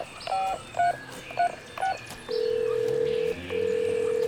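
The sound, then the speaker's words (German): Four evenly spaced touch-tone beeps sound as a telephone number is dialed to call a hotel room, followed by a long steady ringing tone that breaks briefly and then resumes. “Du wirst was? Wo rufst du an? Harveys Hotelzimmer.”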